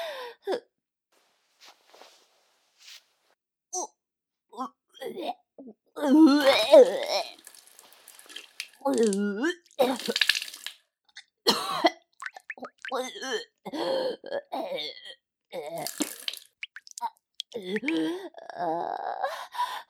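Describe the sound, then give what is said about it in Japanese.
A person retching and vomiting from nausea: repeated strained heaves, groans and gasps come in loud bursts separated by short silences. “ごめんなさい、私、吐きます。”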